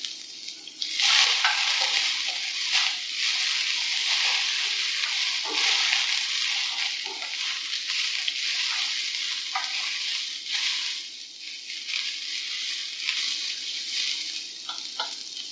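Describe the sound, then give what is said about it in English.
Green pepper strips stir-fry in a pan, giving a steady, loud sizzle for the whole stretch, broken by scrapes and clatters as the vegetables are kept moving. “the green pepper has been cut in half lengthways. The seeds removed, the same as the chili. And then slithers. Like the chili as well. Again, keep the vegetable moving in your pan.”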